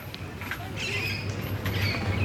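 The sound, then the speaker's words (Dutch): Harsh screeching calls of an Alexandrine parakeet, a large parrot, in a city park: a few raspy, high-pitched squawks over steady background noise and low hum. “Wie hoor je de hele tijd door ons heen praten? Ja, de grote Alexander Parkiet. Dat is een heel mooie grote vogel. Knalgroen en grote rode snavel. En die hoor je keihard hier doorheen krijsen.”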